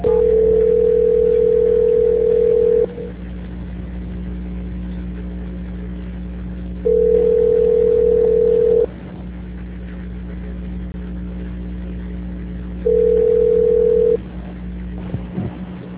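Steady telephone line tone during a call transfer: three long, level beeps separated by several seconds of quiet, with a low constant hum running underneath on the narrow phone line and no talking.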